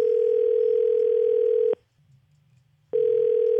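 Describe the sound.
A telephone dial tone hums as a steady, loud, unbroken note before a call, cutting out for about a second of near silence, then resuming.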